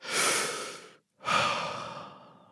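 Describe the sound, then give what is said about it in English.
A person takes a deep breath: a long, airy inhale, a short silent pause, then a longer, noisy exhale that gradually fades. Moderately loud and heard alone, without talk. “I'm going to take a deep breath for Miss Melissa”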